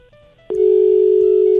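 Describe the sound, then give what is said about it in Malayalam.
A telephone dial tone after a call is cut off: faint, quiet tones give way to a loud, steady, unbroken tone that starts abruptly and holds to the end. “അയ്യോ, രാജി ചേച്ചിയുടെ phone കട്ടായി പോയല്ലോ.”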